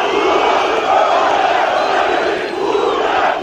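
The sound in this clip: A huge crowd of tens of thousands of supporters chants at a political rally, a loud, dense roar of many voices shouting together that holds steady from start to finish.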